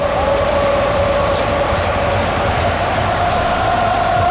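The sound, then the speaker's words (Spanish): Stadium crowd singing during a football match involving the Netherlands: a loud, continuous mass of voices with one sustained sung tone running through a dense roar. It never breaks. “El público está cantando, señores, el estadio.”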